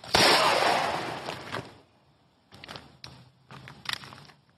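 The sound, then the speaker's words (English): A gunshot goes off during a fast-draw attempt in which the shooter accidentally hits himself: one sharp, loud blast with a long decaying tail, then a few softer knocks and clatters. “I just fucking shot myself.”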